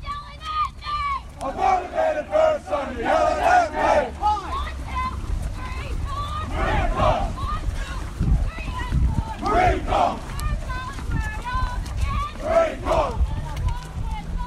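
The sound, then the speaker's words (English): Hundreds of Marines call cadence on a formation run, many voices chanting loudly in unison in steady rhythmic bursts. “Hundreds of Marines out on a formation run, calling cadence and moving in unison.”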